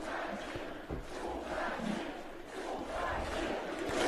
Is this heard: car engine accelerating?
no